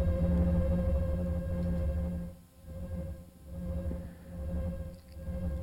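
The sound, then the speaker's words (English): A sustained, low, droning synthesizer tone has its volume modulated by a sine wave, so it swells louder and sinks quieter in a few slow, smooth cycles. “I'm just sending a sine wave into the volume, and that's making it go louder and quieter.”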